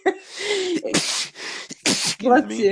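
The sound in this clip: A loud sneeze comes in two sharp bursts after a short voiced intake, and a voice follows afterward.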